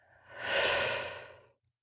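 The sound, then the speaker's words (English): A single deep breath taken during a guided calming exercise, a soft airy swell that rises smoothly, peaks and fades away on its own with no talk over it. “So now take another breath in. Exhale it out.”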